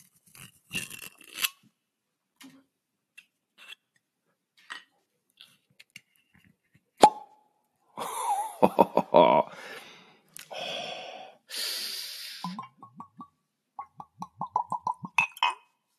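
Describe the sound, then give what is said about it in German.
A bottle is opened slowly and deliberately: scattered clinks and crinkling, tearing rustles build into louder crunchy bursts, followed by a run of quick, evenly spaced clicks toward the end, with no talk. “Und ich werde diese Flasche jetzt öffnen. Ich mache das mal hier so ASMR-mäßig.”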